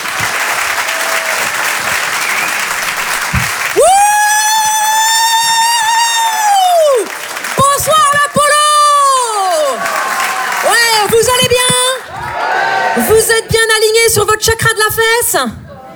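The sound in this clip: Applause and cheering from a comedy club audience at the Apollo Théâtre in Paris fill the first few seconds, then give way to music with sustained tones.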